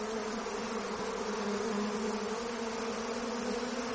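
A swarm of bees buzzes in a dense, steady drone that holds at an even loudness from start to end, with a low hum under a broad hiss and no talk.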